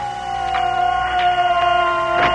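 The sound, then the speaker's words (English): An air raid siren wails over a city as a zeppelin approaches a hospital by night. A loud, steady, sustained tone holds one pitch throughout, with a few faint clicks. “Sister, the siren.”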